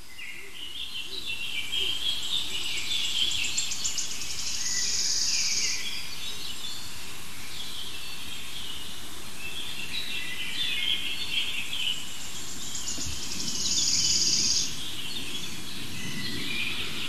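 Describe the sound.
High-pitched bird calls come in repeated short phrases every few seconds over a steady low rumble that may be microphone handling or wind.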